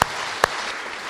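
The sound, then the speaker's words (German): Audience applause at an anniversary celebration: a short spell of steady, hissing clapping, punctuated by two sharp, louder claps that stand out from the rest. “Einen kräftigen Applaus für die Hauptakteure zu Hause.”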